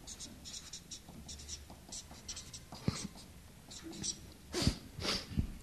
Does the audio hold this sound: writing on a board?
yes